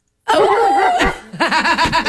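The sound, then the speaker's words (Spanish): Dog barking and yelping, performed as a sound effect in a radio drama: a continuous, loud run of wavering, whining yelps with a brief pause midway, then a quicker series of bouncing barks. “¡Cuando el perro ladra!”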